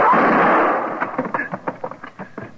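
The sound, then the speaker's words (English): In a radio western drama, a gunshot rings out as one loud, sharp burst with a rumbling tail that lasts about a second. A man's voice follows. “Quaid shot her, Marshal. He done killed her.”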